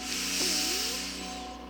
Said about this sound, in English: I'd like you to take another deep breath in, the biggest breath you've taken all day, through the nose.